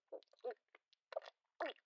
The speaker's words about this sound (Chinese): 对啊，我在吃东西，被你听出来了。